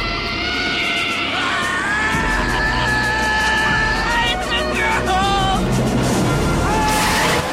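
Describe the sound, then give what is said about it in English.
A truck brakes hard and smashes into a car in a radio drama scene, with a long, high, wavering brake screech over engine rumble, then a sudden noisy burst of impact near the end. “the storeholder slams on the brakes, but can't prevent his truck from smashing into Ben's car.”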